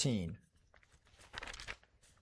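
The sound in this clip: Thin Bible pages rustle and crinkle as they are flipped to Galatians chapter 5, a few soft papery swishes close together.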